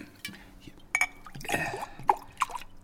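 Apple juice poured into glasses, with liquid trickling and a few bright glass clinks scattered through a short, fairly quiet stretch.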